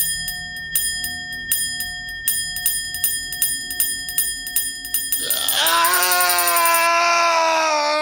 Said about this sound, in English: He stared at this bell, and as he stared, it began to swing slowly, hypnotically, of its own accord.